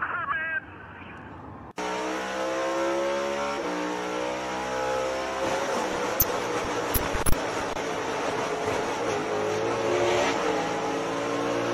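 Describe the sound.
Race car engines roar during a race in Phoenix: a loud, sustained drone with shifting engine tones. It follows a brief, quieter opening and carries on throughout, with a few sharp clicks near the middle.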